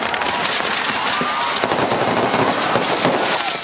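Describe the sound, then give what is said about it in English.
Fireworks explode at a Mexican festival honoring a Roman Catholic saint in Tultepec, a firework-making town north of Mexico's capital: dense, rapid crackling bangs like machine-gun fire, loud and unbroken throughout. “It's all part of a Mexican festival honoring a Roman Catholic saint. The city of Tultepec, just north of Mexico's capital, is famous for firework production”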